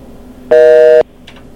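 A beep marks a dropped phone line on a call-in line: one loud, steady electronic tone of fixed pitch lasting about half a second, with near silence before and after.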